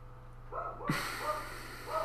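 Dogs barking at home in a few short, fairly faint yips spread across the moment, over a steady low hum.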